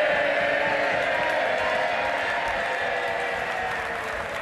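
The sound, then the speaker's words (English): MPs in Parliament applaud a colleague returning after illness, a rousing, sustained wall of clapping from a packed chamber that holds steady and loud. “It's the first time he's spoken out since falling ill. He's been fitted with prosthetics and jokes that he's the first bionic MP. He's returned to Parliament today and received a rousing reception.”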